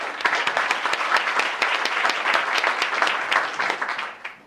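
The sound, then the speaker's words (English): An audience applauds to welcome a speaker, a hospitality house director from Fairbanks, during introductions in Juneau; the clapping is dense and steady, then fades out in the final moments. “And would you please help me welcome Dorinda?”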